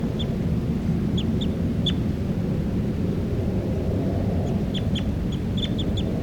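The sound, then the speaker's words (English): A bird calls in a recording made while individual birds were being identified by number: short, high chirps repeat in a few scattered clusters, sounding fairly faint above a steady, loud low rumble. “It's a recording, this is bird 383 calling loud.”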